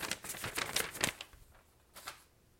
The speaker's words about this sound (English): Well, you have the envelope, sir. So. I do have the envelope. I do. Let me see. I'm going to open it up here.